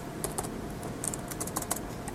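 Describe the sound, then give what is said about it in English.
Computer keyboard keys clack as someone types a short line of code, a quick, irregular run of light, crisp clicks at a fairly soft level, with no voices. “we type s.upper.”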